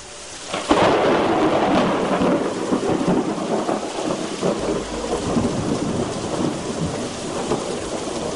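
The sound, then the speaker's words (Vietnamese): Rolling thunder booms over steady rain, with a sharp loud crack near the start giving way to a long, continuous low rumble that stays loud throughout. “Gió mây lập tức đảo chiều, tiếng sấm rền rã cũng bắt đầu vang lên.”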